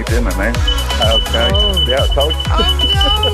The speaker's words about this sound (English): Owen's fire alarm going off in his house because he was burning his dinner